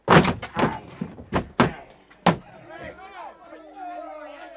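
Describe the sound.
A bolted door is forced open in a radio drama: several heavy, hollow thuds and slams come in irregular succession, and then voices take over.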